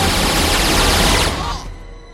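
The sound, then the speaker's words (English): Gunfire in an action film scene as a man is riddled with bullets: a dense, loud, rapid burst of shots that fades out near the end. “He's suddenly riddled with bullets.”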